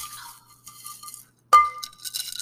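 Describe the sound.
Ice clinking against a glass as a cocktail with extra ice is stirred. One sharp, bright clink rings out briefly, with fainter small clinks and light rustling around it.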